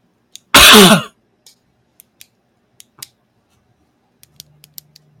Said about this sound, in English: Ah, the Coke went down the wrong throat.